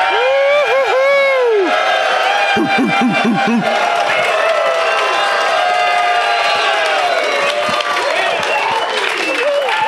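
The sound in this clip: A live audience at a show in Portland cheers loudly, with whoops and shouts riding over sustained applause that stays dense and energetic throughout.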